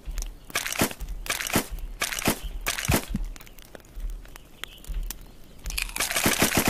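Wood added to a crackling fire in a video game gives many irregular crunchy crackles and sharp knocks, loud and alone.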